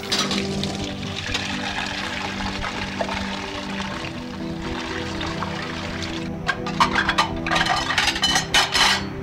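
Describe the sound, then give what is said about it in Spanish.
Cups being washed in water: continuous running, splashing water, with a flurry of light knocks and clinks toward the end. “la más pequeña de la familia, lava afanada las tazas.”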